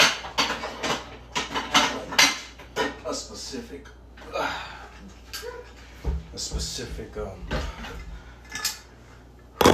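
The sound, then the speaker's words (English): A pot clatters as it is handled for cooking ramen, with many sharp metallic knocks and scrapes of cookware and utensils in an irregular rhythm under ongoing talking. “Pot that I do for your ramen.”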